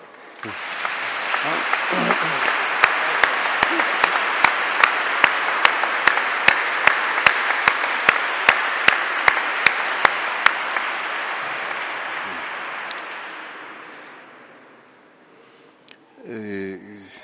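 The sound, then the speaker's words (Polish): A crowd applauds at length. A stretch of loud, regular claps in unison rises out of the general clapping through the middle, then the applause thins and fades, and a brief voice follows at the end. “Należą się brawa.”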